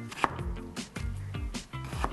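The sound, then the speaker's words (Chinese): A knife slicing winter melon into two-centimetre pieces, cutting through skin and seeds, gives a run of crisp, regular chops with dull board thuds at a steady pace and no talk. “再把旁边的皮 对 一刀一刀切开，然后再把中间的籽也是切开，两公分，”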